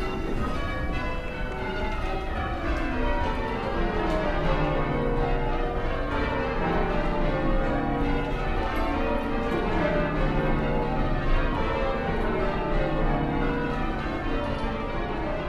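Church bells change ringing with the treble bell leading, a dense and continuous cascade of overlapping bell strokes that stays loud and even throughout, with shifting patterns of tones running through it.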